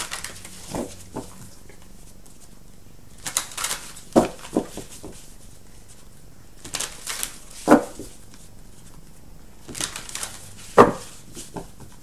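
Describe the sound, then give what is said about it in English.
Shuffling of a Money Tarot card deck: a few short, soft rustling and riffling bursts separated by quiet gaps, fairly faint and with no voices. “All right, let's get one more card around your money from the Money Tarot by Eugene Vinitsky.”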